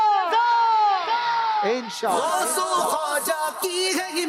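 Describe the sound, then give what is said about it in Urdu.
A studio audience at a team competition show shouts a slogan loudly and with energy: a long drawn-out call, then rhythmic, overlapping group shouts. “نعرہ لگائیے جوش کے ساتھ”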